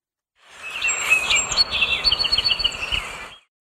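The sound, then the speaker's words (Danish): A song sparrow, a small brown North American bird with a grey and brown-striped head, sings a few clear, high whistled notes. They run into a rapid, sparkling trill over a faint hiss. “Det er lyden af en nordamerikansk sangspurv, en lille brun fugl med et gråt og brunstribet hoved.”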